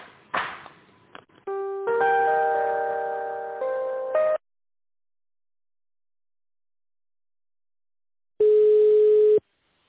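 Telephone line tones while an office call is being transferred: a cluster of steady electronic tones, then silence, then a single long, even beep of ringback tone. Brief clicks and noises come at the start.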